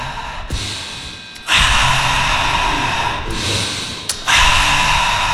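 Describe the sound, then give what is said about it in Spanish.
Heavy breathing from a sweaty woman catching her breath, several long, loud huffing breaths in and out, with brief pauses between them and no speech. “¿Puedo respirar un poquito? Claro, respire, tome agüita.”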